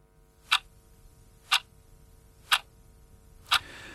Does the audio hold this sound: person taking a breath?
no